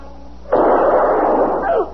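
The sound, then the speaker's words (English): A single gunshot rings out in a radio drama with an abrupt onset and a harsh, muffled burst that sustains for over a second before cutting off sharply. “Oh, dear God. Mister, you shot him. I had no choice.”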